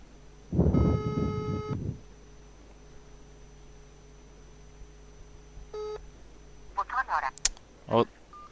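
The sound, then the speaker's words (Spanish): A telephone gives out call tones as a number is dialled: a few electronic beeps, one longer steady tone near the start and shorter ones later, with some other brief sounds mixed in. “Vale, llamando. Estamos llamando.”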